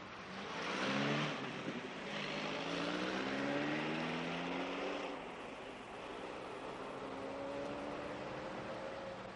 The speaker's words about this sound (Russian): Носилки грузят микроавтобус скорой помощи РАФ-2203. Мигая проблесковым синим маячком, микроавтобус медленно уезжает.